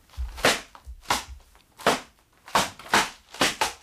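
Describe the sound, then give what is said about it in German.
A mirror smashing into pieces during a wild, flailing fight: seven sharp crashing impacts in an uneven rhythm, each a bright burst that quickly dies away. “Er schlägt wie wild um sich. Der Sohn macht mit. Dabei geht der Spiegel in Scherben.”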